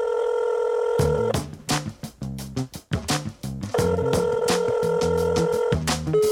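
Electronic telephone ring tones play before a voicemail greeting: bright synthetic beeps in a rhythmic, melodic pattern, broken by two longer sustained tones. The sound is clear and loud, with no voices.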